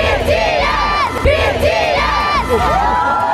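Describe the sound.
Loud crowd of thousands of fans celebrating outside a Munich stadium hours before a band's concert, a steady, dense wash of high-pitched screams and shouts with no pauses.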